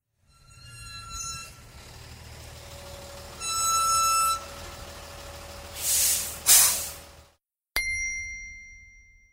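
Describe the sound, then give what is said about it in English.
A lorry with a low, steady engine rumble, sustained tonal blasts, and a sharp, loud hiss of air brakes near the end before a brief silence and a final high tone. “2. Lorry.”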